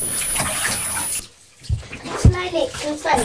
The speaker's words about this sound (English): Let me give you one more rinse, please.